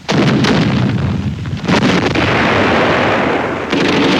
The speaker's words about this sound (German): Flakartillerie greift in die Panzerschlacht ein.